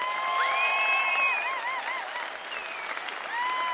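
Audience applause at Mountain Stage greeting a returning performer: sustained crowd clapping with shrill whistles rising and sliding over it, easing briefly before swelling again near the end.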